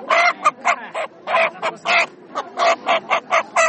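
Chickens at a market let out many loud, nasal, honking squawks in a quick, fairly even run of short bursts, with no talk over them.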